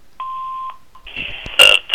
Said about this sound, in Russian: Оставьте, пожалуйста, ваше имя и номер телефона после звукового сигнала.